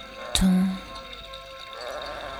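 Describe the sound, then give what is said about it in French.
A single sheep bleat, short and loud, with a nasal wavering tone over a quiet background hiss. “Six moutons. Sept moutons. Huit moutons.”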